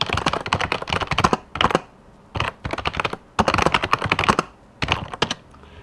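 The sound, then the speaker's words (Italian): Someone types on a computer keyboard while writing something, producing loud bursts of rapid clattering keystrokes broken by short pauses. “allora aspettate un attimo che scrivo una cosa”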